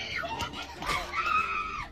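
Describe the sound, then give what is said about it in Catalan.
Excited women scream with emotion at exam results, letting out high, piercing shrieks that climb and waver, ending in one long sustained cry. “Ai, per favor, quin crit. Crits d'emocionades.”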